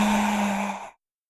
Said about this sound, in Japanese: 吸って、吐いて、